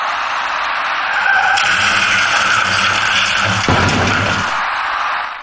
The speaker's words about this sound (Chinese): 事故发生之前，驾驶那辆银色小客的司机未能有效控制行驶方向，造成银色小客的左侧轮胎竟然骑上了主辅路之间的一排花箱，而后一路向南甩了出去。